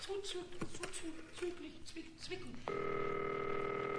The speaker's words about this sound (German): Man muss ja mal halt die Reinigung anrufen. Ja, also, muss ich mal telefonieren.